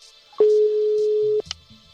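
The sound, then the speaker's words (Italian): A phone ringing tone plays as a voice call starts: a single steady beep lasting about a second, followed by a few short, faint electronic blips. “avvia chiamata vocale”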